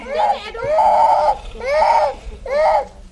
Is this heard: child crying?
yes

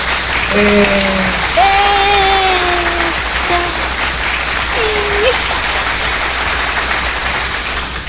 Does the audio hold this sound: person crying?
no

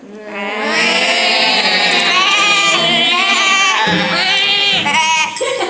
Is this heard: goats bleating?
yes

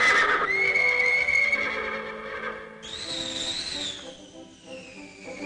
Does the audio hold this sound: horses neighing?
yes

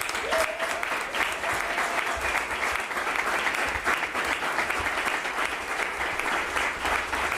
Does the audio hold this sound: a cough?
no

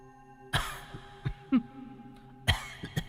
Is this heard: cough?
yes

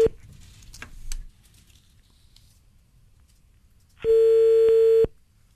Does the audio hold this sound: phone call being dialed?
yes

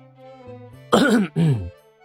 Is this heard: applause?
no

